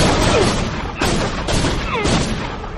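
Shotgun blasts in a mall scene from the Dead Rising video game demo: several heavy booming shots at roughly half-second intervals over a loud, dense, continuous din of noise.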